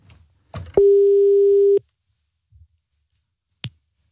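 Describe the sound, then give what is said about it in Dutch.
A telephone ring-back tone heard while placing a call: one steady, level tone lasting about a second, with a click just before it, a click as it ends, and a faint click later. No one speaks. “Kunnen we even Bram bellen, jongens?”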